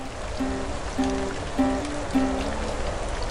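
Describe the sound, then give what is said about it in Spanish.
Rain falls near a river in Valdivia. The hiss of drops and running water is steady and unbroken throughout, with faint low tones recurring at regular intervals beneath it. “El puente Valdivia con lluvia es muy hermoso, es muy hermoso.”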